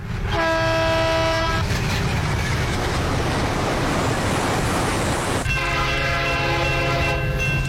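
A commuter metro train runs near Kitteridge with a loud, steady rumble and rattle throughout, framed by two long, sustained horn blasts, one at the start and another near the end.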